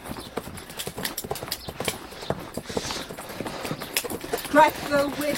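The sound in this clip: Horse hooves clip-clop in a quick, irregular stream of many beats under voices, as riders are urged to hold on and go faster.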